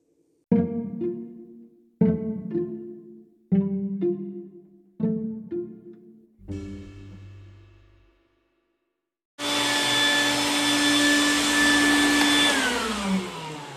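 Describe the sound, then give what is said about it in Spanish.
A vacuum cleaner runs while the house is being vacuumed, switching on after five decaying tones and a short silence, then holding a loud, steady, whining roar that drops slightly in pitch near the end. “voy a aspirar un poco y ahorita continúo”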